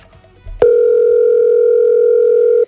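An unanswered telephone call produces a single loud, steady, unbroken tone lasting about two seconds. It starts abruptly after a moment of faint low noise and cuts off at the end.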